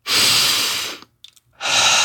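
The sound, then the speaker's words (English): Deep breathing from a person in a guided relaxation exercise: a loud, airy breath of about a second, then a short pause holding a few faint small sounds, then another breath starting. “For a moment, I want you to take a deep breath. Do it with me. Don't feel silly. Do it with me. One more deep breath.”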